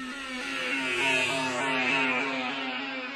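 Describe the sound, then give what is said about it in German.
A homemade time machine powering up: a loud, sustained mechanical whir with stacked, engine-like harmonic tones that rev steadily for a few seconds, with no voices. “Karl setzte den Strom an und die Zeitmaschine wurde in Gang gesetzt.”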